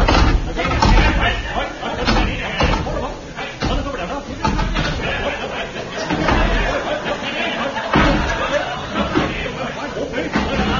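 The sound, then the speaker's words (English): Chairs are stacked one on top of another against a window in a comedy sketch. Clattering knocks and thumps fall in a busy jumble over continuous talking and chatter. “Ladies and gentlemen, the sound you are hearing is that of Seagoon and Eccles balancing chairs one on top of the other.”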